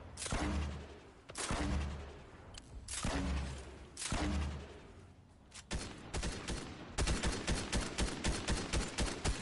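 Video game gunfire: several heavy, booming shots fire about a second apart, then a quick run of rapid, evenly spaced shots rattles to the end.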